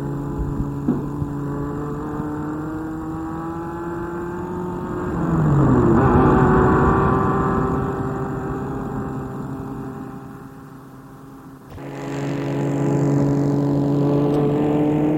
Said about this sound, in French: Il va arrêter sa voiture dans la cour.